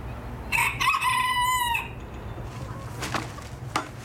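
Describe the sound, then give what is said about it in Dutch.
A rooster crows once in a chicken coop, a loud, drawn-out harmonic call, over low clucking from the hens, followed by a couple of short, fainter calls. “We moeten het hok schoonmaken, al het poep weghalen. En de kippen eten geven en water.”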